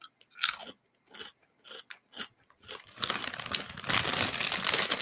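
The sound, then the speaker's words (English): Caramel-flavored rice crisps are bitten and chewed in a series of loud, crisp crunches, which run together into a dense, continuous crackling and crinkling. “That's so loud. But yeah, they're just like the Rice Crisps that are the caramel flavor.”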